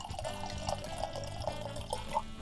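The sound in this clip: Red Sangiovese wine is poured into a glass, a faint, steady liquid trickle with a few soft, evenly spaced drip-like splashes.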